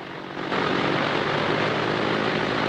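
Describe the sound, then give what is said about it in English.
A small propeller plane starts up on a grass field. The engine catches about half a second in and settles into a loud, steady propeller drone that holds to the end. “Jim starts up his plane and sets off across the grass.”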